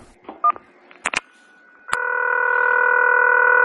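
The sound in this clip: Telephone call tones for a rejected call: a few short keypad beeps and clicks, then a loud, steady, unbroken electronic tone that holds to the end.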